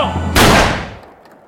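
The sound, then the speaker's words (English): A single loud gunshot cracks out sharply after a brief low hum, its ringing tail fading away over about a second. “Those were shots, Christ.”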